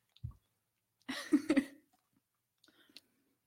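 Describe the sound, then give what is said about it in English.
Biting and chewing crunchy battered cauliflower: a short crunch, then a louder cluster of crunchy chews, followed by a few faint clicks of mouth sounds. “So it's crunchy. I think you need to take another bite. I think you took a bite of just the batter.”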